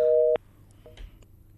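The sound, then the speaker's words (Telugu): A telephone busy tone sounds after a caller's call drops. One short, steady two-pitch beep cuts off abruptly, followed by a few faint clicks and near silence. “Caller call cut అయినట్టుంది.”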